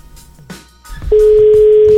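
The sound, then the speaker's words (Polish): A telephone is dialled. A few soft clicks and short beeps come first, then a loud, steady tone at a single pitch starts and holds unbroken to the end. “Dzwonimy do Małgosi.”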